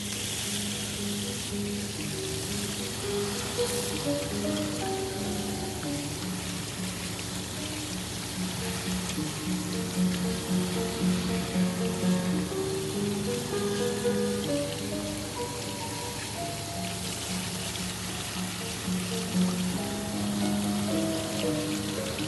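Water from a washbasin tap runs over a woman's hair as it is wetted, a steady, soft, continuous hiss and patter that stays even throughout.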